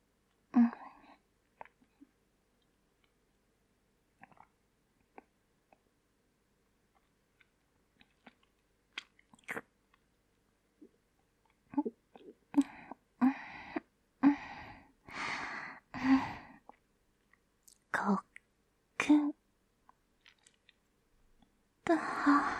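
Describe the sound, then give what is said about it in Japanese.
Wet licking and lapping sounds from a mouth working over every last drop, in many irregular short bursts, sparse and soft at first, then denser and louder toward the end. “一滴残らず全部ペロペロ舐めて、そしたら、”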